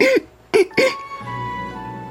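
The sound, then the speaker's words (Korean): Three short voiced coughs, a single one followed by a quick pair, fairly loud and alone, then a low steady hum. “꽃은 어린 왕자에게 잘못을 뒤집어 씌우려고 기침을 두세 번 했다.”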